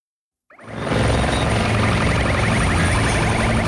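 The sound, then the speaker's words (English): Helicopter flying over a wildfire near Madrid, Spain: a loud, dense roar with a rapid rhythmic chop rises quickly out of silence and then holds steady to the end. “That sound is becoming all too familiar for tens of thousands of people across Europe. Fire trucks, helicopters, and water bombers are racing to contain wildfires burning near Madrid.”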